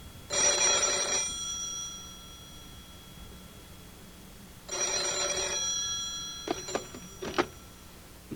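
A telephone bell rings in two bright, buzzing bursts separated by a few seconds of quiet, followed by a few sharp clicks.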